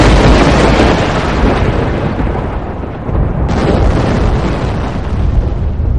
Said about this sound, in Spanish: Vale, perfecto, el Vesubio. Estoy en Pompeya y acaba de explotar el volcán.